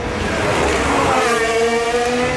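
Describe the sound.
A Formula 1 car driven by Verstappen on hard tyres exits a chicane toward the tunnel and Tabac, its engine a loud, sustained high-pitched scream with dense harmonic tones throughout.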